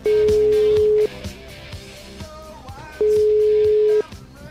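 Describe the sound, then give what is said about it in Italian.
Telephone ringing tones from an outgoing call: two long, steady, mid-pitched tones about a second each, separated by a pause of roughly two seconds, over a busy background. “che sono degli ammiratori degli interventi di Fede alla Zanzara, hanno provato a chiamare Fede con un numero da qui, dalla diretta.”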